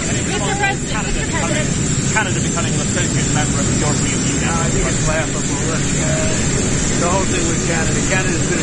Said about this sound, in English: Now the audio is pretty bad because they're right beside a jet engine